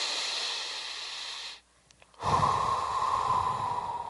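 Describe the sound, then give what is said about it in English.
A deep breath taken during a guided relaxation exercise: a long, airy inhale, a brief held pause, then a fuller, louder exhale, soft and heard alone. “I want you to go back to your happy place. I want you to take your deep breath.”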